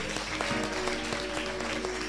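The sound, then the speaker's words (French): Applause for a choir during a church service, a soft patter of claps with a few sharper strikes standing out over a steady held tone and a low hum. “Est-ce qu'on peut acclamer Dieu pour le cœur?”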